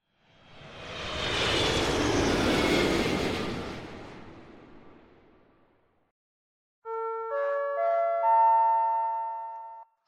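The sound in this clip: An airplane landing: a broad engine roar swells over a couple of seconds, holds, then slowly fades away. After a brief silence, a bright, sustained multi-note electronic chime follows.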